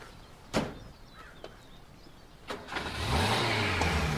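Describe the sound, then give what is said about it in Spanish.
Two sharp thuds of a car door, then the car's engine starts and revs into a steady drone as the vehicle pulls away. “entra al vehículo y se aleja”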